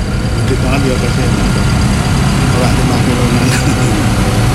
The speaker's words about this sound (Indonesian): Ini ruang genset.